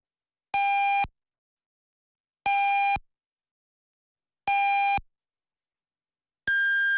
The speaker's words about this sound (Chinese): 安徽经济广播主持人杨帆为您报时，现在是北京时间22点整